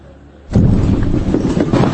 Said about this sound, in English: Massive explosions in northwestern Syria. Activists say these are tunnels full of explosives being detonated by militants